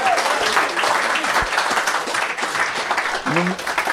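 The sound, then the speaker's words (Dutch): Audience applause greets a barman introduced by a stand-up comedian in a bar venue. The clapping is continuous and moderately loud, and voices are heard faintly over it. “Applaus voor Jannik.”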